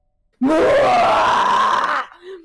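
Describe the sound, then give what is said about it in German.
A voice imitates a warrior's battle roar: one loud, sustained bellow of about one and a half seconds. It climbs in pitch at the onset, holds steady, then drops off into a faint short tail. “mit dem Knauf vom Schwert wieder auf das Schild und brüllt einfach nur noch aufs tiefste Seele”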